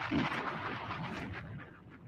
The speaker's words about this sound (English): Nothing like the sound of bombs going off on a Monday evening.